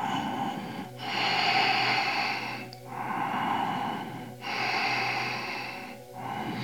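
Deep, audible nasal breathing during an abdominal yoga exercise: long, airy inhales and exhales in a slow, even rhythm, each breath separated by a brief pause, with no talking.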